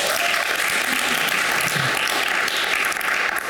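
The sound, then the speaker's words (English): An audience applauds to welcome a panel at a talk on craft. The clapping is dense and steady, holding evenly for the whole clip. “Can we all please welcome our panel?”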